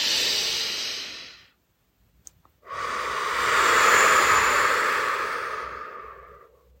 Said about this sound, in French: prends un dernier moment pour respirer profondément dans cette position inclinée.